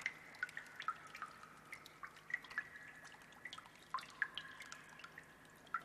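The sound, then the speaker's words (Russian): Last drops of easing rain fall onto a calm water surface, producing scattered light plinks and drips at irregular intervals over a very quiet, faint background. “Дождь начинает ослабевать. Геометрический рисунок теряет свои четкие очертания, исчезает.”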